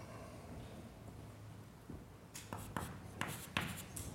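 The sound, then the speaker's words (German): Scratchy handwriting strokes as a mathematical function is written out by hand, faint at first, then a run of several short, crisp scrapes and taps in the second half, with no talk. “Jetzt nochmal unnormiert. Schreiben wir die zweite Funktion wie folgt hin.”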